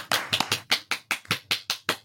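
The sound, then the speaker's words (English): Crisp handclaps for a speaker after a talk, sounding as a brisk, fairly regular run of about a dozen distinct strokes rather than a dense wash of applause. “A big round of applause for Dr. Christine, everybody.”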